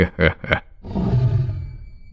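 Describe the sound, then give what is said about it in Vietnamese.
A tiger roars loudly, a low, rough, growling roar that swells and then slowly fades, preceded by two short sharp vocal bursts. “Con hổ gầm lên một tiếng thật lớn.”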